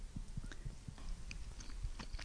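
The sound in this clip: Faint chewing of a creamy tuna, butter and milk stew with mushrooms, eaten from a stew plate: soft, moist bites and mastication in a loose, irregular rhythm, with no talk.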